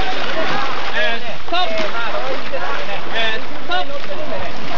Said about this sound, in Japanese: 徳島県吉野川の上流、8人乗りのゴムボートがスタートしていきました。